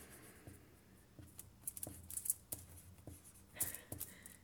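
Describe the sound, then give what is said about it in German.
A pen writing on paper gives soft, scratchy strokes in many short, uneven bursts, faint and close. “Jetzt schreib mal Heilworte drauf.”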